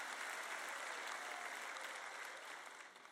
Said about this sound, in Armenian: Նկատեցիք, դուք չեք ծափահարում այնքան բարձր, որքան ծափահարում էիք այլ բաների համար։